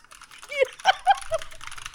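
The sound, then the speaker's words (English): Light typing on a loud computer keyboard: a few soft, scattered clicks mixed with a faint voice. “your keyboard, though, is so fucking aggressive. It's so loud. Like, here, I'm just going to, like, very lightly type, like, as if I'm sending you an email.”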